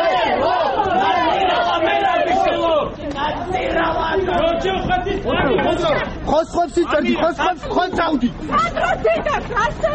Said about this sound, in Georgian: შინაგან საქმეთა სამინისტროსთან შეკრებილმა რამდენიმე ადამიანმა ყოფილი პრემიერ-მინისტრი მანქანამდე შეძახილებით მიაცილა.